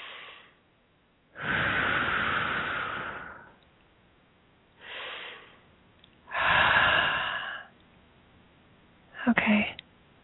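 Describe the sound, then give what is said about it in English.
Deep, slow breaths: long airy inhales and exhales in a few separate cycles, soft and breathy, with quiet pauses between them. “Let's take two nice deep breaths again.”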